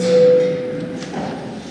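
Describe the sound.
A parliament bell is rung before a vote on a bill in its third reading. It is a single steady tone that holds one pitch for under a second, then fades into faint background noise.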